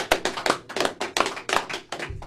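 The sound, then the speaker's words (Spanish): Rhythmic clapping at a peasant farmers' league gathering, with many sharp claps falling in a steady, even beat at moderate loudness. “¡Hizirra! ¡Hizirra! ¡Hizirra! ¡Aplausos!”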